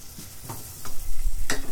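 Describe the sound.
Dry, crisp, medium-bodied white wine being stirred into a hot pan, with a steady sizzle and scraping stirring strokes that swell louder midway through.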